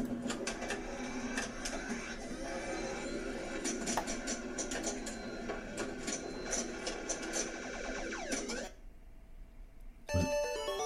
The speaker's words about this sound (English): I like these pinball sounds. Vulcan pinball machine.